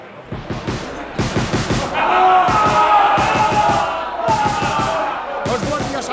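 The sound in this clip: Militia rifles fire a volley near an armory square: many sharp cracks in rapid bursts, with crowd shouting and voices rising beneath the shots.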